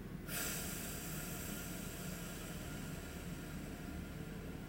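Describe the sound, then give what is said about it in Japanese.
A slow, deep exhale during a relaxing breathing exercise: a long, steady, breathy hiss that starts after a brief pause and carries on evenly to the end, with no talk. “はい最後吸ってたっぷり吸って吐きます”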